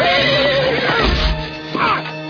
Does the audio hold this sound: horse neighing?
yes